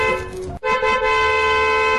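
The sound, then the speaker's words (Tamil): A government vehicle's horn sounds in a loud, sustained honk, briefly broken off early on before the steady tone resumes and holds to the end. “Government வண்டி போகுது”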